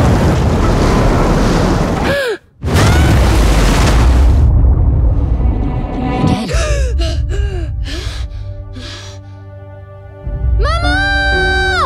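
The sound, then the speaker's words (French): Rough stormy sea with crashing waves fills the opening seconds with a loud, dense roar, broken by brief vocal gasps, before fading under voices and other sounds. “La mer est démontée.”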